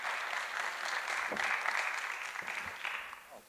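Audience applause welcoming panel guests onstage, a dense, steady wash of clapping that holds at an even level for several seconds before easing slightly at the end.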